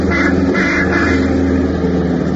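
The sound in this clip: A car with two people inside drives along, giving a loud, continuous engine drone with a steady low rumble and no clear pitch change.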